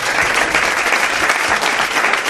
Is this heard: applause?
yes